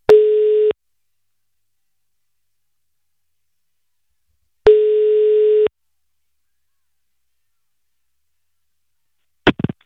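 A telephone ringing tone while a call is placed: two long, steady tone bursts separated by a pause of about four seconds, then a short, rough burst of sound at the end.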